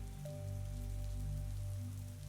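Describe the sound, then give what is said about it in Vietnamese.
Heavy rain pouring outside just before dawn, a steady, continuous rushing hiss with no breaks, fairly quiet overall beneath a low constant hum. “trời sắp sáng, nhưng mưa vẫn còn xối nước không ngừng. Bên ngoài âm thanh rào rào cứ vang lên”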